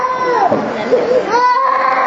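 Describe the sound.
A baby cries at a prayer gathering, a loud wavering wail that holds steady for about two seconds with shifting pitch and no real pauses.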